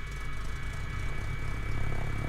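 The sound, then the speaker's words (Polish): An aircraft engine starts in a flight simulator game, a steady low whirring drone with a constant high whine that grows slightly louder. “Póki silnik się nie odpali całkiem.”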